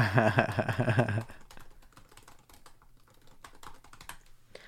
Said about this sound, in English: Hold on, I'm going to type.